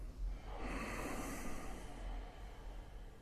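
Slow breathing in and out during a breathing exercise, heard as a soft, airy hiss of air with a gentle swell and ebb, faint and alone.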